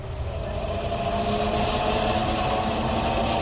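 A sci-fi spaceship moves in on sublight drive with a steady, loud engine-like drone, a deep rumble and broad hiss holding constant throughout.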